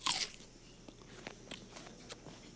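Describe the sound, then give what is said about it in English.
Someone bites into an apple with one crisp, loud crunch at the start, then a few faint, softer crunching sounds follow. “And so you cut it up and you put it in a salad, or you cut it up and you put it in a pie, or you just eat it just as it is.”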